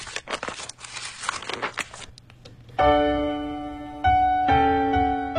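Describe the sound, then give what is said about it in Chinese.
A paper letter envelope is torn open with crinkling, ripping rustles of paper. Music with sustained, ringing tones follows. “今天的第一封来信来自上周五我们的在微信上的小伙伴 Double， 我们先来拆开他的这封信”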